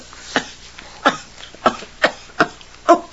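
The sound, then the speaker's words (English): Choking coughs from a fishbone stuck in the throat: six harsh, rasping bursts in an uneven rhythm, with no talk over them. “Oh, a fishbone in my throat.”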